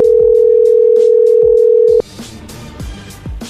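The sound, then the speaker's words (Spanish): A steady, loud telephone dial tone sounds while a call is being redialed. It holds one pitch for about two seconds, then cuts off abruptly, leaving quieter low knocks and handling sounds. “Pero márcale otra vez, márcale de nuevo.”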